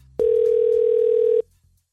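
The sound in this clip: A telephone dial tone sounds as a call is placed: one steady, unbroken mid-pitched tone lasting just over a second, loud and clean, then cutting off abruptly.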